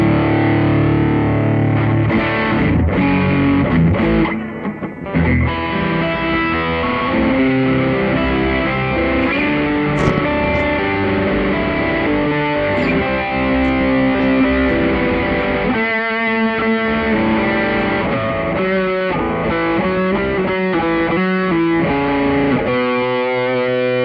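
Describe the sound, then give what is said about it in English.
Electric guitar played through a distortion drive pedal costing just under £30, into an amp set for a metal tone: loud, continuous, saturated riffs and sustained chords with brief pauses, no voices. “I think that you can get a nice metal sound out of it if you play with your amp tones a wee bit. But the distortion, if you ask me, is absolutely...”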